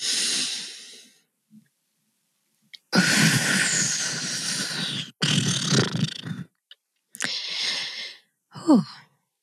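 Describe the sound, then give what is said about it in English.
Deep breaths drawn in and let out during a guided breathing exercise, with a few long, airy inhales and sighing exhales separated by short silent pauses. “Take the deepest breath that you've taken all day. Collectively exhale. And let's do that again.”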